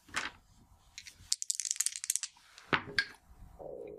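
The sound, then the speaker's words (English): Dice rolling during a tabletop role-playing game: a quick, faint run of many small clicks and clatters, with a few duller knocks and handling noises before and after. “Wait, I rolled the wrong dice. Tens.”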